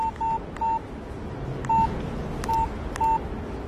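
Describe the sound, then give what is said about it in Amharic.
A telephone number is dialed with touch-tone keys: several short, clean electronic beeps sound alone at irregular intervals. “ደውልላታል። እንድታውቀውማ ማድረግ አለብኝ።”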